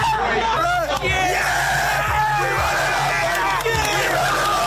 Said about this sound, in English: Here's some sounds from their celebration courtesy of Fox 54 News in Huntsville.